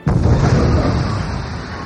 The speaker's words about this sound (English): A concussion missile exploded toward the Jedi pilot's ship.